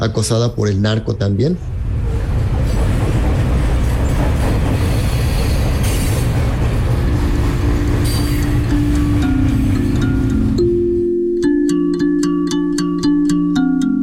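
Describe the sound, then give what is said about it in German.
A freight train carrying about 600 people rolls through the Tierra Blanca region of Veracruz, Mexico, in the evening. A loud, steady rumble of wheels builds into a sustained metallic wheel squeal, then gives way to a run of regular, rhythmic clicks. “Wir waren etwa 600 Personen auf dem Zug, die an diesem Abend durch die Region Tierra Blanca im Bundesstaat Veracruz fuhren.”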